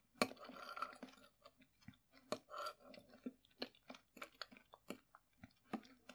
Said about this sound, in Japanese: このホワイトソースにも玉ねぎ入れたから、どこの玉ねぎを噛んでるのかわからないよね。